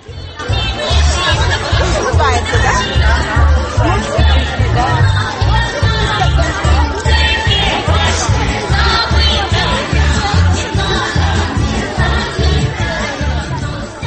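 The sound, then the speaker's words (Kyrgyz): Dense crowd chatter at the Maslenitsa festival in Fuchik Park, Bishkek: many overlapping voices form a steady, loud hubbub that fills the whole stretch without pause. “Бишкектеги Фучик паркында Маслинца жумалыгынын акыркы күнү белгиленүүдө. Бул жерде ар кандай оюн-зооктор, улуттук ырлардын коштоосу менен концерттер өтүп жатты.”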